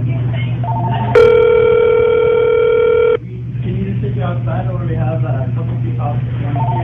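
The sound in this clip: A steady electronic ringback tone sounds for about two seconds on an outgoing phone call to a restaurant. Talk and a low hum run before and after it.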